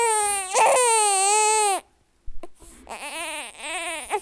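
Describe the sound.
A newborn baby cries: a long, loud, sustained wail, a short silence, then a second broken cry whose pitch rises and falls.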